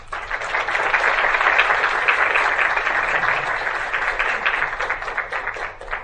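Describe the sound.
An audience applauds to welcome a speaker at a charity campaign event. The clapping is dense and steady, swells early on, then tapers slightly toward the end.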